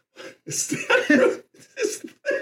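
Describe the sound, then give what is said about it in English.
Coughing and choking from a person who has just sniffed cask-strength whiskey: harsh, voiced bursts arriving in uneven clusters, some short and some drawn out. “Just sniffing it and he's choking on it already. Well, it's strong. It's cask strength.”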